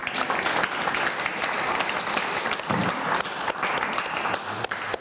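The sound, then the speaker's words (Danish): Dense, steady applause from an audience welcoming a guest in a church in Ørsted, a continuous wash of many hands clapping at an even loudness for the whole stretch. “Jeg synes, vi skal starte med at give Pia en kæmpe hånd.”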